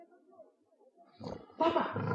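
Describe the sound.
A lion roars, bursting in after a faint, murmuring stretch into a loud, rough, harmonic-rich growl that swells again and holds through the final half second.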